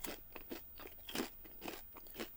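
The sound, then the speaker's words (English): Popcorn being eaten: a run of many soft, crisp crunches and chewing sounds in a rough, irregular rhythm, fairly quiet throughout. “I'm eating more popcorn.”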